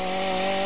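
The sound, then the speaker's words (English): A chainsaw engine: a brief, loud, steady buzzing whine that holds one even pitch throughout. “You know what's scarier than the sound of a chainsaw on Halloween?”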